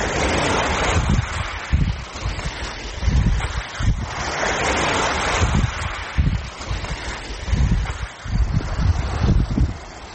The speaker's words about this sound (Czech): Ima li što ljepše od zvuka mora?